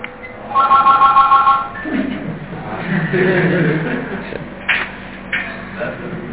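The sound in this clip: An electric telephone rings in rapid, trilling pulses for about a second, then gives way to talk and faint shuffling.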